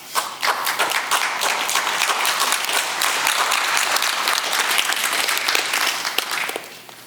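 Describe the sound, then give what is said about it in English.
A church audience claps in a dense, steady burst of applause that holds for most of the stretch and thins out near the end, with no talking over it. “See, I love the fact that some clapped and some didn't”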